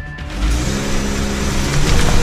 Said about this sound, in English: The car takes off, and police make their move.